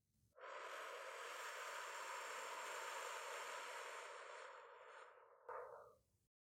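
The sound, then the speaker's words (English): A long, slow exhale during a 4-7-8 breathing exercise, a steady airy whoosh lasting about five seconds that gradually softens, followed by a short final puff of breath. “Hold breathe out,”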